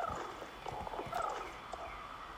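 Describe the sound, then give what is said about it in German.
Faint hoofbeats of a horse ridden once around the arena during a riding session, a soft, steady clip-clop over low background rumble. “Deswegen soll ich jetzt einfach noch eine Runde machen, wo ich meinen Sitz präsentieren kann. Genau. Die Runde reite ich mal eben.”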